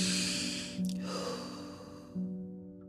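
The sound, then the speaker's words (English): A deep inhale and slow exhale at the close of a guided healing mantra. The breath sounds are soft and airy over sustained low tones. “Y'all know we gonna inhale, exhale.”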